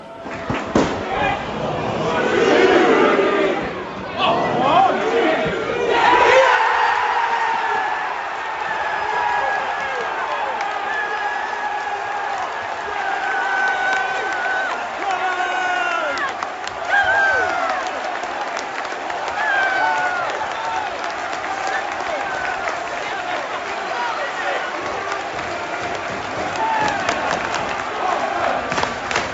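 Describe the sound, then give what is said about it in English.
Football stadium crowd roars as Watford score a second-half goal against Rotherham, the ball rifled into the bottom corner after a corner. A loud, sustained cheer with chanting swells after a few early bursts and holds steady to the end. “And that is the sound of Yasser Asprilla rifling the ball into the bottom right-hand corner of the goal.”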